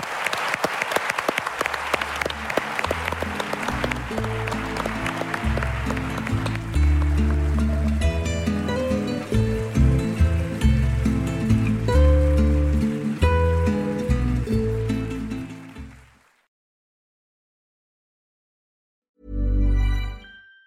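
An audience applauds at a comedy festival show with sustained, loud clapping for about sixteen seconds. The clapping fades into silence, and a short, loud burst of applause follows.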